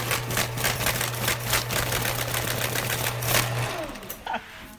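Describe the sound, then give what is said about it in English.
Rapid rhythmic mechanical clatter from an old postal cancellation machine, kept oiled, clean and painted dull gray, feeding a stack of holiday cards. Many quick strokes repeat evenly over a low steady hum that drops out toward the end. “And if the machine skips one, the card goes back through again. Between Thanksgiving and a few hours ago, the old cancellation machine had processed more than 34,000 holiday cards.”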